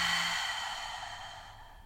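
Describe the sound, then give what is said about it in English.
A deep breath exhaled slowly through the mouth during a guided breathing exercise: a soft, steady, airy whoosh that gradually fades away, with no talking. “Inhale deeply, lower belly expands. Exhale through your mouth, let it go.”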